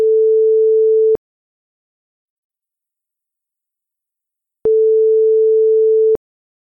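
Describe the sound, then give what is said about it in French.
A telephone line tone plays after a number is dialed: a steady, low, pure hum sounds twice, about one second and then about one and a half seconds, with a long silence between. “Je compose le numéro.”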